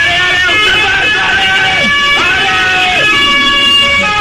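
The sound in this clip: A van's siren sounds loud and steady as the van passes, with stacked wailing tones that dip sharply in pitch a few times.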